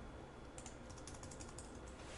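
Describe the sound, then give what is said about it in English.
Faint, rapid keystrokes from typing code on a computer keyboard, a quick run of many light clicks that starts about a quarter of the way in and continues nearly to the end. “I'm going to type in private sub button 3 click.”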